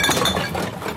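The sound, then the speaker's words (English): Coins clinking as change adds up: a brief, bright metallic jingle of a few quick clinks, heard alone and fairly loud. “You hear that, Tassie? That's the sound of change adding up.”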